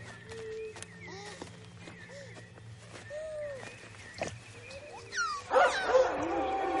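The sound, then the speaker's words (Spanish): Dogs bark and yip as riders chase through a forest, with a mix of sharp barks and thin, whining yelps at moderate volume. The commotion grows louder and harsher near the end. “Perros y jinetes corren hacia los Nerwin que abandonan el claro.”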